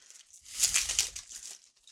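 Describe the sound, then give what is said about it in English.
The plastic wrapper of a trading card pack is torn open in one quick crinkling, tearing burst that swells and then fades, fairly quiet and with no talk. “Pack number 1. Let's crack this open.”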